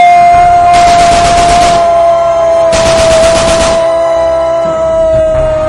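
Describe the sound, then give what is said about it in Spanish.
Two bursts of rapid automatic gunfire in a comedic staged scene, each about a second long and separated by a short pause, crackle loudly over a steady high tone that runs throughout, with no talk. “No mames, dispararon a Pikachu, güey.”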